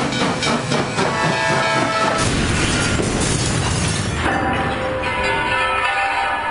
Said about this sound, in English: I think that was an Amtrak train.